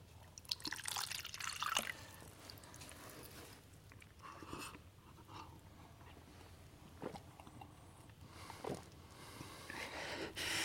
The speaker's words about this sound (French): Veux-tu boire un peu d'eau? S'il te plaît. Tiens.